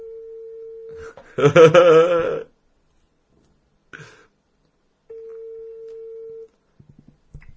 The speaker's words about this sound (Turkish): Şunu bir arayayım dur.